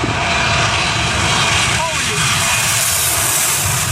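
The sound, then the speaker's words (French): A voice imitates an airplane engine diving, a loud, continuous rushing roar that holds steady for nearly four seconds. “Alors l'avion, il arrive quand même, hein. Je suis un avion et j'arrive.”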